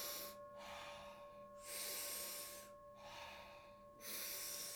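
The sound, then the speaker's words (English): Deep, rhythmic breathwork, with big breaths filling the chest, lungs and belly, then soft exhales. Faint, breathy rushes of air come and go in a steady cycle of several breaths, and no voice is heard. “taking about 30 to 40 powerful breaths in through the mouth. Make sure you breathe so big that your chest, your lungs, your belly are expanding. And then as you exhale, it's just a nice soft exhale.”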